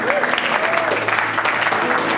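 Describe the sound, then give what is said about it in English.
Applause from a church audience during a sermon, many hands clapping in a dense, steady roar for the full two seconds, with voices calling out over it. “Let's give the Lord a hand clap for that.”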